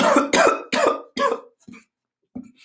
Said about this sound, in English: that's a weed cough.